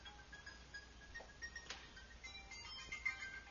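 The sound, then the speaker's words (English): A cell phone ringtone plays faintly, a short tune of high electronic notes repeating quietly over low background hiss. “Sorry about the cell phone. I must turn them off, mustn't I, in future.”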